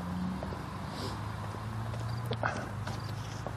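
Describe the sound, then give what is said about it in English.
Footsteps of someone walking a daily loop around a quiet neighborhood, a steady run of soft steps under constant outdoor background noise, with no talking. “and I'm walking during that mile, so I don't talk during that mile.”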